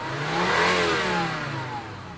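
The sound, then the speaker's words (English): A car engine runs and pulls away as people drive off, a broad mid-pitched engine roar that swells and then eases off slightly. “We're both getting in it, and we're starting the engine.”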